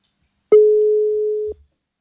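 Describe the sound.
A telephone call tone sounds while dialing out to a caller on a live phone-in line: one steady, mid-pitched beep lasting about a second, heard alone.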